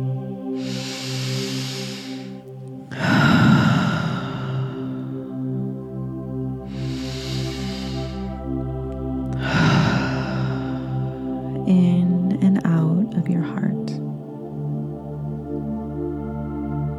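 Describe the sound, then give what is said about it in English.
Deep breathing during a breathwork exercise for post-workout recovery: about five long, hissing breaths come in slow succession over a soft, steady tonal background. “breathing in and out of your heart. That's it. I'm just keeping that breath going.”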